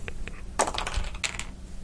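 Dice are rolled in a quiet tabletop game, making many small, sharp clicks and rattles in uneven clusters over a soft background hiss.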